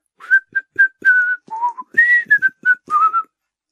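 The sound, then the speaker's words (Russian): A boy whistles a tune clumsily but loudly, with a string of short, uneven notes hopping between pitches and separated by brief gaps. “от радостных чувств засвистел неумело, но громко”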